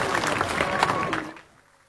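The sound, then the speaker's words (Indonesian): Audience applause at a Bali arts festival, a dense burst of clapping that holds steady for just over a second and then drops away to near quiet. “Tepuk tangan untuk Bali. Tepuk tangan lagi untuk Bali.”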